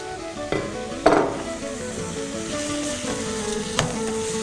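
Minced meat frying in hot oil with softened onion, ginger and garlic: a steady sizzling hiss broken by a few sharp clinks of stirring against the pan.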